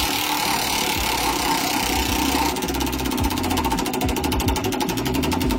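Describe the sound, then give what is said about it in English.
A prize wheel spins in a lyric-guessing game show, giving a dense, steady mechanical whirr and rattle that becomes fast, even ticking partway through. No one speaks over it. “All right, here is the wheel spinning for song number one.”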